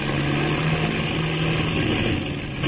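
A damaged aircraft motor, apparently hit by gunfire, runs badly as a steady, loud droning rumble with a low persistent hum. It continues unbroken throughout with no voices.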